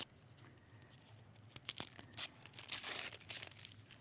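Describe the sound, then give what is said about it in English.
Paper tears and crinkles as a wrapped package holding a jewelry box is unwrapped. Faint, scattered rustles and rips build into a denser burst of crackling toward the end. “Now, what did he just do? He just took that last package and he unwrapped this.”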